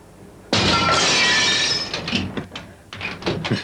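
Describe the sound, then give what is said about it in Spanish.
Glass window smashed: a sudden loud, bright crash bursts in and holds for over a second, then breaks into scattered clatters and tinkles of falling shards that fade and flare again. “Mira que romperé el cristal.”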